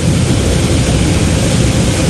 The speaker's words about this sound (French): Voilà, on roule tranquillement. On est en train de tranquillement quitter notre emplacement parking pour s'avancer direction piste de décollage.